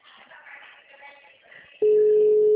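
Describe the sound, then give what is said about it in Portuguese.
A telephone ringback tone on an outgoing call: after a faint, muffled murmur, one steady, low-pitched tone starts abruptly near the end and holds loud to the close. “Tô ligando, tá tocando.”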